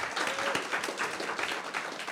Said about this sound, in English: why don't you clap for them?